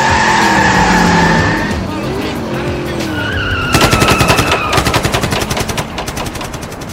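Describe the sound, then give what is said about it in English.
Gunfire erupts in rapid automatic bursts, a dense stutter of sharp shots filling the second half after a loud, rumbling, whining stretch. “Dr. Churchill, were those guys just shooting at us? That's the third time that's happened.”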